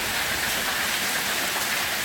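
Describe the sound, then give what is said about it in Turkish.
Heavy rain and hail pour down in a storm over Tekirdağ and Kırklareli, a dense, steady hiss of falling water that stays loud and even throughout, with no voices. “Şiddetli yağış Tekirdağ ve Kırklareli'yi de etkisi altına aldı. Sağanak ve dolu caddelerde su birikintileri oluşturdu.”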